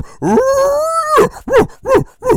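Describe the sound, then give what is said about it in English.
A human voice imitates a bull elk's grunt: a long, loud, drawn-out moaning tone, then a few short, punchy grunts in a steady rhythm. “and just giving them that big gruntle. And if you've been around a lot of elk, that's what they do”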